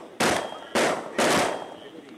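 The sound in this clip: Three loud, sharp high-powered rifle shots fired at a wild hog in a field, evenly spaced bursts, each with a brief decaying tail.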